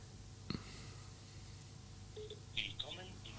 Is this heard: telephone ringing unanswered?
yes

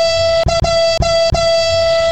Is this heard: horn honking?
yes

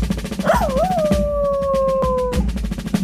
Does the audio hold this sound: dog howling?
yes

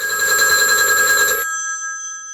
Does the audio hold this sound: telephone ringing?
yes

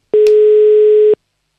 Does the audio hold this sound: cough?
no

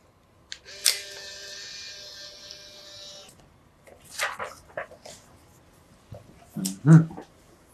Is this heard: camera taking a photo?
yes

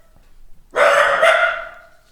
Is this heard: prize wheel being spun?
no

